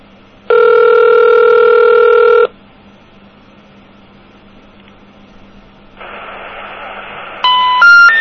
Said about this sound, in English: Well, that's fast. It's a different ring.